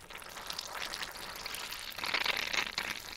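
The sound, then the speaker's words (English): Fizzing, crackling bubbles rise from kimchi brine fermenting in a jar, a faint, continuous hiss of tiny pops that grows a little louder toward the end. “Okay, that's got some pretty serious bubble action going on.”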